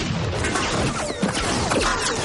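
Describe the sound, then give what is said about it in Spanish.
Gunfire on the Indiana Jones and the Last Crusade (1989) film soundtrack as men on a hillside shoot at a convoy: many sharp cracks and crashing impacts in a dense, chaotic barrage. “Varios hombres disparan al convoy desde una ladera.”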